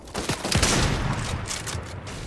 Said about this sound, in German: Aber direkt wird wieder auf mich geschossen.